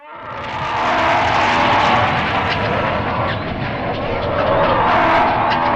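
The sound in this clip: A loud, harsh roaring sound effect made to voice Martians as a mating bellow. It rises quickly into a dense, sustained blast like a jet or explosion and holds steady for several seconds.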